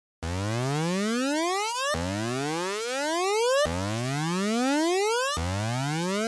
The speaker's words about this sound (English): There are a few moments which break up parts of the song where I use this oscillator up sound. I call it oscillator up. I just mean a sweep, a lifter, a riser. It sounds like this.